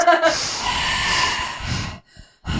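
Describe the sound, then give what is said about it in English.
Breath rushes straight into a microphone as a long, noisy, airy blast lasting a couple of seconds, then cuts out briefly before another short burst of breath. “I'm trying to subtly signal to you don't breathe on the mic.”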